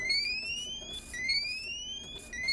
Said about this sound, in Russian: Этот сигнал предупреждает экипаж о циклоне.